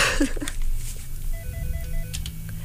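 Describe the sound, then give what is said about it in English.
An incoming call rings the telephone at a radio station as a quick series of short electronic warbling beeps, faint over low background sound. “Oh, we're getting a caller. Oh, wow. Our veiled threats worked.”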